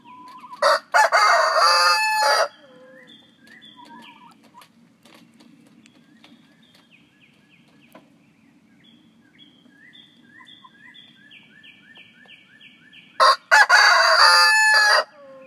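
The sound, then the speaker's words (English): Chickens in a coop, with one hen sitting on the nest about to lay: soft, repeated clucks and murmurs run throughout, broken by two loud, harsh bursts of calling near the start and the end. “Here we are at the coop. Chubbles is sitting on the nest. She's about to lay, we think.”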